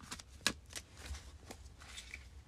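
A deck of cards is shuffled for a card reading, giving quiet papery riffling with a few crisp snaps, the loudest near the start.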